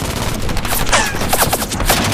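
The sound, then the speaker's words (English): Machine-gun fire from a Zero fighter plane spits tracers during an aerial chase. A dense, rapid crackle of shots runs over a constant rough, noisy background. “Tracers flash from the Zero's muzzle, zipping balls of red-hot hate, creeping, clawing closer.”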